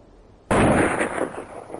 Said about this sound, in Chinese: 忽然间一声枪响在黑夜中绽放，然后便是激烈的枪声在夜空中经久不息，还有人类的惨叫声。